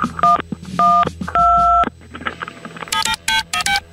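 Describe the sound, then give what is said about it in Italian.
Telephone keypad dialing tones: three clear dual-pitch beeps of differing lengths, the third longest, followed after a pause by a quick run of shorter, higher beeps, loud and with no talking. “Avete sentito i tasti del suo telefono? E io allora gli metto dei suoni diversi per confonderla, così è convinta di chiamare 112.”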